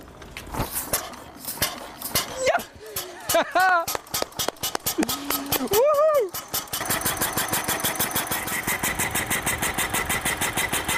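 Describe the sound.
An early car engine is being started, with uneven cranking clatter and sputters that give way to a steady, rapid, rhythmic chugging as the engine catches and runs.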